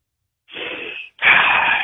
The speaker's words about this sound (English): Okay, here we go. Deep breath